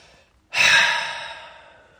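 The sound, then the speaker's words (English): A deep breath during a guided relaxation exercise: a faint intake, then a loud, breathy exhale that rushes out suddenly and slowly fades away. “Take a deep breath in, let it all out.”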